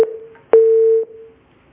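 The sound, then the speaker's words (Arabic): A telephone line tone sounds as a call comes through on a radio call-in show: a short tone, then a steady, clear mid-pitched tone lasting about half a second, bounded by small clicks, before it fades. “معنا اتصال، تفضل. ألو.”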